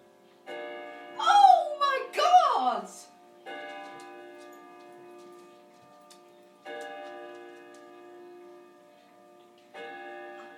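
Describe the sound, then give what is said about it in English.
Slow chimes from an old clock that had not struck in over two years: four ringing strokes about three seconds apart, each sustained and slowly fading, with an excited voice speaking over the first stroke. “It chimes! Oh, it chimes! I can't believe it! It's very slow, but...”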